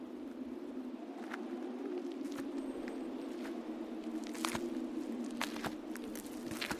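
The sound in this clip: Footsteps on paths winding around ancient standing stones, faint and irregular, over a steady low drone.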